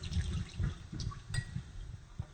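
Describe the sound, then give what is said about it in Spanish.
Water squeezed out of washed soy gives a run of soft, low, wet squelching and splashing bursts, irregular and fairly steady in loudness, with no voices. “La exprimimos perfectamente aquí.”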